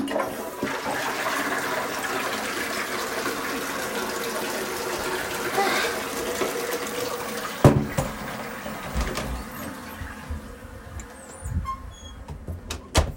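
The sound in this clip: Toilet flushing, a loud sustained rush of water that gives way to gurgling and a few sharp knocks, then quieter trickling and intermittent clunks as the tank refills.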